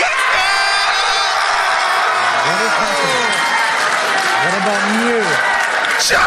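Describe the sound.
A live crowd cheers, whoops and yells for Raboot at a PAX East 2022 Pokémon face-off show. The roar is loud and sustained throughout, with rising and falling shouted voices riding on top.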